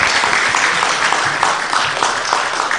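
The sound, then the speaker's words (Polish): Audience applause at a civic gathering about city development, a dense, steady clapping that stays loud and even for the whole stretch with no voices over it. “Można bić brawo.”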